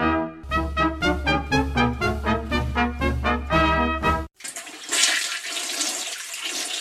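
A toilet flushes with a rushing roar of water draining away, following several seconds of tonal music and continuing steadily to the end.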